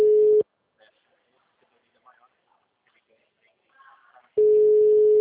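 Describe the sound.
Telephone ringback tone while a call is being placed: a steady, single-pitched electronic tone sounds twice, briefly at the start and again near the end, with a long quiet gap and faint murmurs between.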